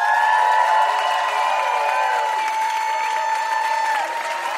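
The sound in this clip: Loud, steady applause with some cheering from an audience welcoming a special guest, an activist. It continues unbroken from start to finish without any speech.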